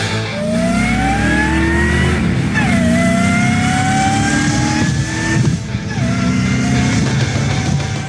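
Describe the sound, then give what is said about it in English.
A supercharged Volvo 240 car engine revs loudly. The supercharger's whine climbs in pitch with each rev, a few times in a row, over a rough engine roar. “Gotta love those supercharger noises. That is Devin's supercharged Volvo 240.”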